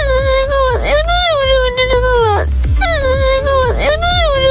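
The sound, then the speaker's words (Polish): Loud crying and sobbing: a drawn-out wail whose pitch wavers, in two long bouts separated by a short break. “Lepiej, żeby tak nie było. Będzie płacz.”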